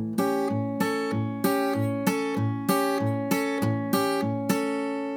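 Acoustic guitar played with upward brushes across the high strings, the pinky fretting the fifth fret of the high E string. About eight bright, ringing strums fall in a steady, even rhythm, each one decaying before the next.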